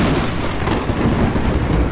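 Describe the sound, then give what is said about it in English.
A winter-night thunderstorm with rain and cold wind: a steady, loud roar of rain and wind runs through the whole clip, with a low rumbling underneath and no voices. “It rained all night. Cold wind blew. Lightning flashed.”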